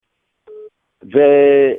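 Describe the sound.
A phone rings with an incoming call: a short electronic beep, then a louder, sustained buzzy tone with rich overtones.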